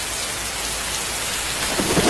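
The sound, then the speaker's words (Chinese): Heavy rain with thunder, a dense, steady hiss of downpour and wind that holds at an even loudness, with a low rumble swelling near the end. “这是风声，这是雨声，”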